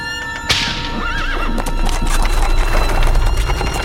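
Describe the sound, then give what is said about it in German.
A heavily loaded horse-drawn wagon rumbles off through wet meadows at dawn. A sharp crack is followed by a horse's whinny, then a steady loud clatter of hooves and rolling wooden wheels. “Beim ersten Hahnenschrei rumpelte der schwer beladene Wagen durch die nassen Wiesen davon, auf den Wald zu.”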